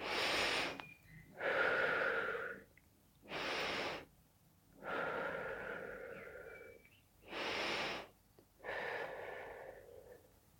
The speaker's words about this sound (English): So in through your nose, out through your mouth. You don't need to make noises when you exhale.